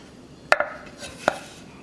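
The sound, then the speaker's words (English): Knife chopping cooked ground beef: two sharp, crisp chops spaced under a second apart, each a quick loud knock on a quiet background, with no voices. “And the ground beef is pretty easy, it's ground beef. So just a quick little chop, and we're set.”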